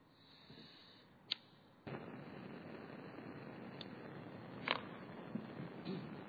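Gas being lit for a fire-played instrument: a couple of sharp clicks, then a steady, faint, broad hissing roar of the burning gas that carries on to the end with a few small ticks.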